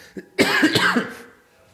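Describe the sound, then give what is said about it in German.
A person coughs in a short fit of a few harsh, raspy bursts that run together and then fade, heard alone without talk. “Da ist schon wieder der Husten.”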